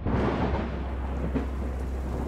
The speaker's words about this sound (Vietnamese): Nửa đêm hôm ấy trời đổ một trận mưa to.